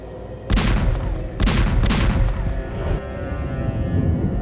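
Gunfire in several heavy bursts, the strongest three close together near the start, over a continuous loud rumble that never drops to silence.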